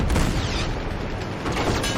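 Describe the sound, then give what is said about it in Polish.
Cannon fire in a video game: heavy booming blasts with a rumbling low end, one burst at the start and another near the end, a noisy rumble in between. “Co to jest? To jest jakieś takie działo chyba.”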